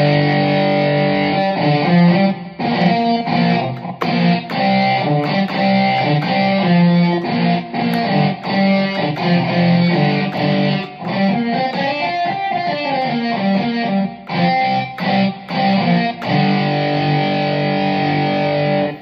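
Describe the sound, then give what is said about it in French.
A heavily saturated, distorted electric-guitar sound shaped by bellows expression, playing a loud, continuous melodic line with dense chords and brief breaks throughout. “on a la possibilité d'avoir des sons de guitare comme ça très saturés”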